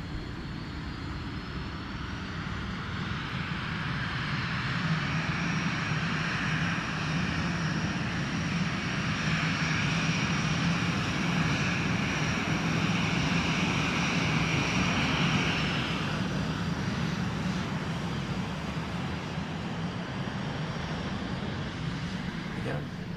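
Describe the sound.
An airplane taxiing on the ground in a film scene: a loud, steady engine drone with a thin high whine on top that cuts out about two-thirds of the way through while the rumble carries on.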